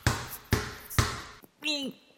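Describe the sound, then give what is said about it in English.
A basketball is dribbled between a player's legs, giving three sharp, loud bounces spaced about half a second apart. A pause follows, then a brief spoken voice. “Well, now he's dribbling it between his legs. Dribbling what, Don? The basketball.”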